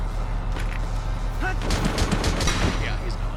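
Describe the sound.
Gunshots ring out in a video game: a quick cluster of sharp, cracking reports bunches together near the middle. A steady low hum runs underneath throughout.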